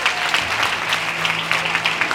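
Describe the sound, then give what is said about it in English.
Applause from an audience at a church gathering welcoming new members: rapid, dense clapping that holds steady throughout, with a faint low hum running underneath. “Can we just give these people a really big round of applause?”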